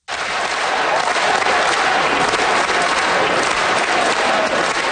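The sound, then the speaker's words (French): Thunderous applause from MPs in Canada's House of Commons as Olympic and Paralympic athletes from Milano Cortina parade through the chamber. The clapping starts abruptly and holds as a loud, dense, sustained roar. “Les sportifs ont défilé dans la Chambre des communes sous un tonnerre d'applaudissements des élus.”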